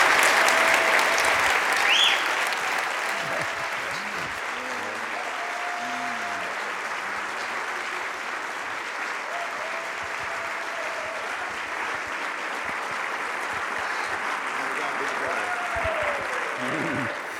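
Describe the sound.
A church audience on its feet applauds as a pastor comes up to minister. The clapping is loud and sustained, strongest at the start and swelling again near the end, with a few voices calling out over it.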